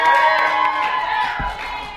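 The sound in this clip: Crowd cheering and clapping at a live youth event in Steubenville as a girl from the audience is welcomed forward; loud, dense shouts and applause run through the full two seconds.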